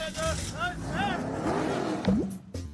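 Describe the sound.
A truck drives in a video game: a revving engine with whining, wavering tones, then a brief squeal near the end, all mixed with voices.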